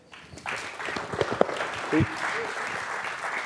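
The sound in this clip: Church audience applauding to welcome a speaker, a clapping wave that swells up quickly at the start and then holds steady, with a few voices calling out over it.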